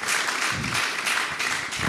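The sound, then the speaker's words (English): A church audience applauds to welcome newcomers, a brief, even burst of many hands clapping at a steady level. “Any newcomers? Way, wonderful. Let's give these guys a very warm welcome.”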